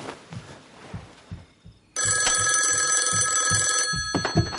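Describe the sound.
A telephone rings at night, waking someone in bed. One loud, bright, continuous ring lasts about two seconds between faint, low thuds before and after.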